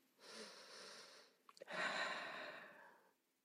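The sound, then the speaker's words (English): Calming breathing exercise for stress relief: after one long breath come two quick short inhales, then a longer, steady exhale that fades out. The breaths are soft, airy and heard alone. “two back-to-back inhales, a longer exhale, and that might just seem like I'm almost like recalibrating.”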